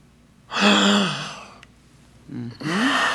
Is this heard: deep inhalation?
yes